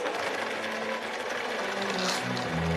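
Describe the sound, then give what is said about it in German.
A sewing machine stitches along the marked seams of a dirndl, its presser foot lowered, giving a steady, unbroken mechanical whir with no pauses. “Du lässt jetzt den Fuß runter mit dem Hebel ah. und du nähst genau entlang der aufgezeichneten Nähte.”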